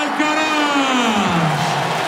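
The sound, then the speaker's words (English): A tennis crowd cheers and applauds after Carlos Alcaraz wins in straight sets. The roar is loud and steady throughout, with a man's voice speaking over it. “There's the cry of Vamos. And there is the appreciation from the crowd.”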